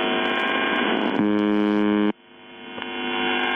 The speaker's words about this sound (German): Auf 4625 Kilohertz, also Kurzwelle, sendet seit den späten 70ern eine Station, die nichts anderes tut, als diese Geräusche auszustrahlen.